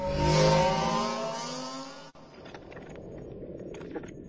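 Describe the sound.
A motorbike engine revs as the throttle is twisted, giving a loud, buzzing harmonic roar for about two seconds. It then cuts off into a softer, rushing noise with faint rattles.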